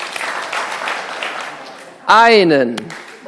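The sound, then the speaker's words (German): An audience claps together during a church sermon, a dense rush of clapping lasting about two seconds before a voice begins speaking. “Wenn man Psalm sagt, dann einmal klatschen.”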